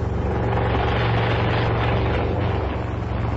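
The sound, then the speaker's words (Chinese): A helicopter slowly descending to land on a meadow, its rotor and engine making a dense, loud, continuous roar with a steady low throb throughout. “一架直升飞机在草场上徐徐降落，柳英”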